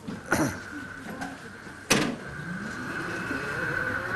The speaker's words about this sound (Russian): Так, давайте проход делаем, я не знаю, если он... Пропустим электромашина.